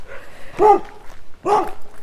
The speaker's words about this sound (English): That dog doesn't look either hopeless or exhausted. He's just got a lot to say for himself.